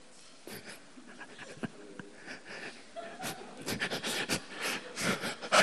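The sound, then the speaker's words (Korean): Someone retching as if about to vomit, a run of rough, breathy heaving bursts that grow louder and come faster toward the end. “지금 막, 어떤 분이 토하려고 그러는데.”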